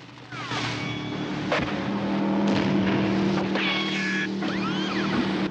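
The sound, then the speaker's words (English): Speedboat engine racing on water during an action chase, a loud continuous droning hum with steady low tones, and a few brief whining tones sliding over it, with no voices. “As Bond swerves his boat out of the way, another speedboat appears with three men dressed in yellow Drax Corps uniforms.”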